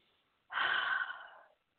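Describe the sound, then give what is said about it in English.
A person takes one long sniffing inhale through the nose, breathing in the scent of black spruce essential oil from an opened bottle. The soft, airy hiss starts abruptly, then tapers off over about a second, with no talk. “Black spruce, and as I talk about it, I'm just going to open it up, and I'm going to inhale it.”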